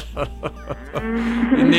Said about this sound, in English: I'm going to call a vet and get a vet over there to check out that cow. It's got a problem with his voice.